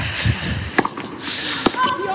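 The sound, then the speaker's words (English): A tennis ball is struck on a serve during a match, with a couple of sharp, hollow impacts standing out under steady commentary. “Another good serve from Svitolina. Deep serve.”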